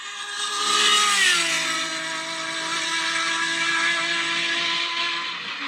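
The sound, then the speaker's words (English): Race car engine at 140 mph down the front straightaway at Roebling Road: a sustained, high buzzing drone that dips slightly in pitch early, then holds steady and loud. “So that's 140 miles an hour down their front straightaway at Roebling Road,”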